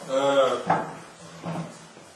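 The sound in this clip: A chair being brought over and set down during a lecture gives a couple of dull knocks after a brief voiced sound, fairly soft overall.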